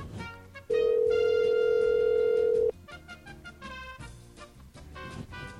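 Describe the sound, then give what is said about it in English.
A telephone ringback tone plays once as a call connects, a steady electronic tone of about two seconds set among light background music. “Trying to connect. Oh, it's ringing. We'll see. Maybe we'll get voicemail.”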